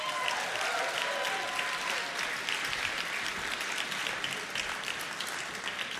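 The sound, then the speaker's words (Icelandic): Audience applause for a band that has just finished playing, sustained and dense clapping from many people at a steady, moderate level throughout. “ef að gefa þeim gott klapp.”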